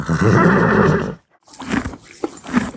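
A horse neighs, an eventing horse kept on a grain-free energy feed. One loud, sustained whinny lasts about a second and breaks off abruptly, followed after a short silence by softer, uneven noises.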